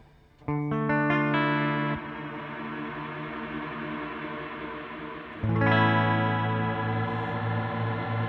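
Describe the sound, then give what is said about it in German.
Shimmer effect from a reverb unit set to its Critical setting: sustained, bright harmonic tones ring and smear with a glassy wash. A second, louder swell enters partway through and keeps sounding to the end. “Also bei vielen Hallgeräten ist das halt sowas ähnliches dann der Schimmer-Effekt, ne? Ja. Der klingt dann so ähnlich. Hier kann man noch ein bisschen was einstellen. Critical und Hazard, was macht das?”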